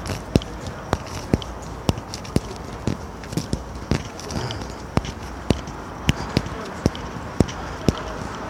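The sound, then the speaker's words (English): Footsteps walk down a London street toward the Old Bailey, the Central Criminal Court: a steady series of crisp, evenly spaced heel strikes that keep a regular walking rhythm throughout. “So walking down to the Old Bailey now, or the Central Criminal Courts, as its proper name.”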